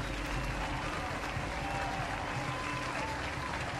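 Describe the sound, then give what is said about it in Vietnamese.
A crowd cheers and claps at a feast. The roar of voices and applause is dense and steady and runs through the whole clip without a break. “Tiếng reo hò đầy vui mừng khi được tiếp đãi chu đáo và hậu hĩnh.”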